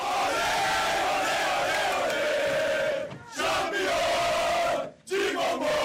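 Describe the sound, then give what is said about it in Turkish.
Galatasaray football fans chant for Mauro Icardi during a league title celebration at Rams Park. The loud, sustained crowd chorus drops off briefly twice before swelling again. “Sezon sonunda kulüpten ayrılması beklenen Mauro Icardi, kendisi için yapılan sevgi tezahüratları sonrası gözyaşlarını tutamadı.”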